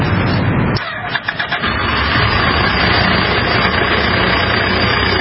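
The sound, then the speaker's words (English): A motorbike engine turns over and then runs, giving a loud, steady, rough drone that holds with little change after a brief dip early on. “It turns over, but it doesn't stop. But the RFID reader antenna is here, so when I authenticate, the bike powers up.”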